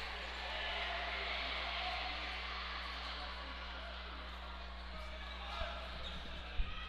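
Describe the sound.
Basketball dribbled during a high school boys' game: a few faint bounces near the end over a steady crowd murmur and low hum.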